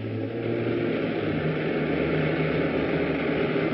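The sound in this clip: A spaceship engine coming in to land gives a loud, steady droning rumble that holds at an even level throughout, with no voices over it.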